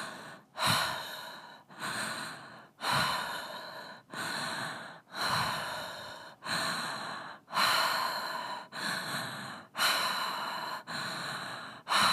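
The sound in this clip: A breathing exercise with a long run of forceful, rhythmic breaths, each a rushing burst of air separated by brief gaps. The pace stays even and no one speaks.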